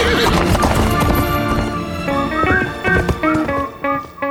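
Shadowfax the horse galloping and neighing in a Return of the King scene: steady clip-clop of hooves with shrill, wavering whinnies over a dense tonal backdrop, loud throughout.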